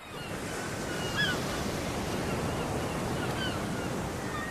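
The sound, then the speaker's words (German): Sea waves washing against a pier on the ocean at Santa Monica, a continuous broad surf roar with steady hiss and gentle swells in loudness, with no talk over it. “Ich stehe auf einem Pier neben Kormoranen und Pelikanen. Vor mir das Meer.”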